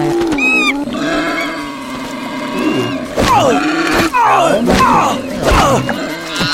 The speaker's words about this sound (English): That boar just got angry at me.